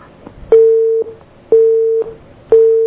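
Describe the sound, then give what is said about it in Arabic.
Telephone busy tone after a dropped call: three loud, steady mid-pitched beeps, each about half a second, in an even on-off rhythm with faint clicks at their edges. “اتصال قطع ربما.”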